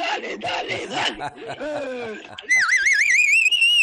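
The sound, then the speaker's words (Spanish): Warbling electronic alarm clock ring with a rapidly wavering pitch, loud and continuous, starting abruptly after a stretch of talk and laughter. “No, ¿cómo te vas a dormir con este despertador?”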